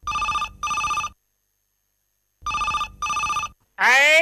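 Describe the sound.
A telephone rings in two double bursts of a steady, bright electronic bell tone separated by a pause, then a voice begins speaking right after.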